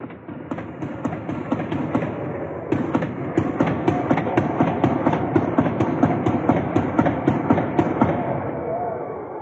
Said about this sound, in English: Let's go ahead and take a listen to what it was like on the ground whenever the shooting broke out. We're just going to play a couple of seconds of this.